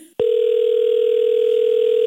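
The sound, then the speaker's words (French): Ringback tone on an outgoing phone call: after a brief click, a single steady, unbroken tone holds loud and even to the end. “Et là, si ça répond pas, on va laisser un message. On appelle Marie-Ève Saint-Martin. On croise les doigts.”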